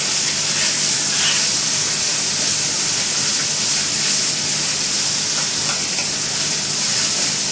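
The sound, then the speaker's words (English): Crumbled tofu frying in hot oil in a pan gives a constant, loud, bright sizzling hiss that runs without a break and holds an even level throughout. “The oil is heated up. All we do is put the crumble tofu in it and stir it.”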